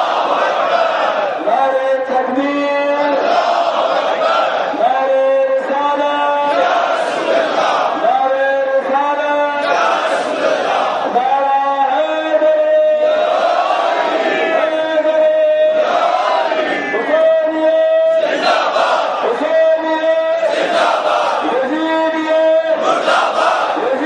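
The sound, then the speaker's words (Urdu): A crowd shouts the slogan Nara-e-Takbir in response, many voices joining in loud, repeated chanted bursts that keep up a steady rhythm for the whole stretch. “ان تمام ناروں کو, ان تمام باتوں کو اپنے ناروں کے ذریعے سے اظہار کرتے ہیں. نعرہ تکبیر,”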